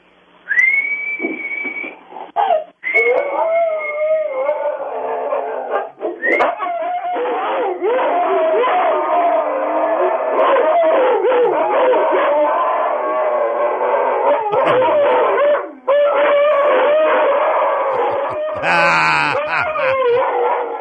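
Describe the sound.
Several dogs, a German Shepherd among them, howl along to a song in long, wavering, high-pitched notes that rise and fall continuously, loud and sustained throughout, with brief breaks and a sharp squeal near the end.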